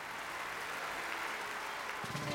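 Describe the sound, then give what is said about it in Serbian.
Dense, steady applause from an audience greeting an introduced guest, a continuous even wash of claps at constant loudness throughout. “Aplauz.”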